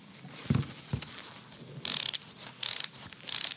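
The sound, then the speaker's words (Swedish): A shoe's ratcheting lacing system is tightened: a couple of soft knocks, then three short, bright buzzing clicks of the ratchet, each lasting a fraction of a second with gaps between them. “Kan du inte bara dra åt förresten den där snörningen en gång så man får höra hur det låter?”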